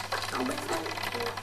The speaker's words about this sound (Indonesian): Enak banget ya obeng cepet.